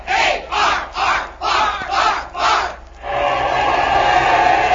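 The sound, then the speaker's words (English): A cadet corps cheers a batter at a baseball game, shouting in a run of rhythmic chanted bursts that then swell into a sustained, loud crowd roar. “The far cadet corps is giving him a big hand. Let's listen to it.”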